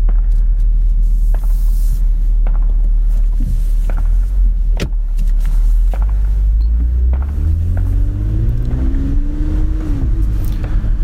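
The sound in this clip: Engine rumble from a 2021 Toyota Camry TRD driven in sport mode on suburban Michigan streets: a steady, loud low drone, with the engine note climbing in pitch as it accelerates in the later part.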